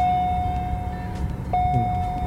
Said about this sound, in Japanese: 駐車場についてバックで移動しているというような状況ですけどね